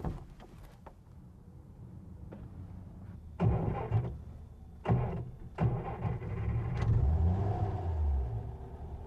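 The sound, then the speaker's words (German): A car engine being started: a few short cranking bursts, then a steady low rumble as it keeps running for the last few seconds. “jetzt wollte ich erst mal nachschauen, ob mein Wagen überhaupt anspringt”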